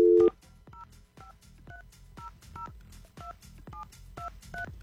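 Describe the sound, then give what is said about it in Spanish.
Touch-tone beeps dial a telephone number in a steady series of short, evenly spaced electronic tones over a low background hum, with no voices. “Vamos a marcar ya.”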